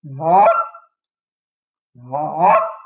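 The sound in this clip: Two cluck notes blown on a game call, each a warm, honking tone that rises toward a higher, cracking break, with about a second of silence between them.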